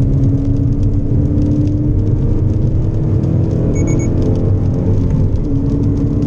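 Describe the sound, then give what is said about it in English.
The new Subaru BRZ sports car with its 2.4-litre engine takes a race circuit corner. A loud, steady engine drone and road rumble hold evenly for the whole stretch. “was bold enough to let us drive around the race circuit in the previous model and then to compare it to their latest edition. And now the new model on the same corner.”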